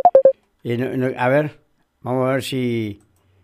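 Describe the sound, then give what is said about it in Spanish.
Three quick, high telephone keypad tones sound as a call is dialed back, followed by a voice talking in two short phrases. “Ahí te estoy llamando de vuelta, ahí estamos.”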